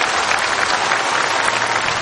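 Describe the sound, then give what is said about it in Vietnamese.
Audience applause at a Buddhist dharma talk: dense, steady clapping from many hands, evenly loud throughout the short stretch, with no voices. “Rồi, cho một tràng pháo tay, rất nhiều người làm.”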